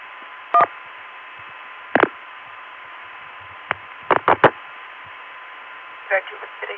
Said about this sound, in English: this is the very same dial tone that people in the Richmond office get when they dial 9 for an outside line. So here's 411.